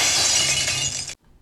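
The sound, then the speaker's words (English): A glass beer bottle shatters in a single bright, crashing burst of breaking glass about a second long, then silence. “if you are heading to Qatar for the World Cup, that was the sound of your beer bottle breaking or your highball cracking,”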